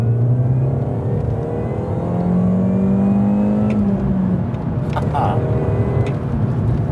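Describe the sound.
A car engine is revved to about 2500 rpm at full throttle, giving a steady, droning hum that holds under people talking.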